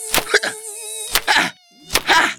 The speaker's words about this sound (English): This tent is full of mosquitoes.